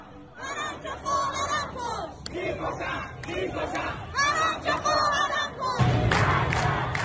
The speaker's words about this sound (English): That's the sound of the protests happening right now in Iran.